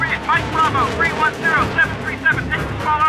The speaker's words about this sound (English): Mike Bravo, 310-737, taking small arms fire.